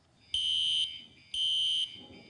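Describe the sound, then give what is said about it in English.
A fire alarm sounds during an emergency-procedures briefing at a vacation Bible school: two loud, high electronic tones, each held about half a second, separated by a short gap, with no voices. “Fire alarm. Fire alarm sounds like this.”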